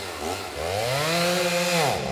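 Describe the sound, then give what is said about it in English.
Chainsaw sound effect revs in a single sustained buzzing burst of about two seconds, its harsh harmonic whine climbing early, holding steady and dropping away at the end. “I must have deleted drum roll. Best I can do is chainsaw?”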